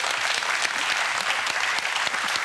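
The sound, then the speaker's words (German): Applause from a studio audience at a quiz game: dense, even clapping from many hands, loud and sustained throughout with no pause or voice over it. “Großen Applaus für Basti.”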